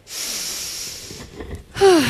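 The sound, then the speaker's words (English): A deep breath is drawn in as a long, steady, airy hiss of inhaling, then it tapers into a quieter breathy release. “So the next time becomes a little bit too fleeting, like right now for me, let's maybe try to take a deep breath.”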